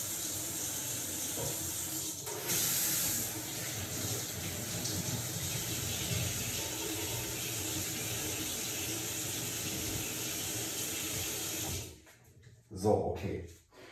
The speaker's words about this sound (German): jetzt mal alles schön ausspülen.